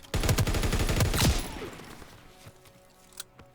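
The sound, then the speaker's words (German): Video game guns fired from the hip, spray-and-pray style: a dense, loud burst of rapid automatic shots lasting over a second, then a fading tail and a few isolated shots. “Ich schieße jetzt nur aus der Hüfte. Ich muss mir das angucken. Wie OP Spray and Pray aus der Hüfte ist.”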